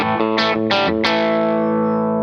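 An electric guitar on its bridge pickup plays through an amp with a basic, gritty distorted tone: a few quick chord stabs, then one chord left to ring out and slowly fade.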